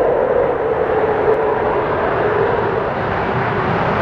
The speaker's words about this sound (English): Main gear touchdown. Currently now deploying the drag chute.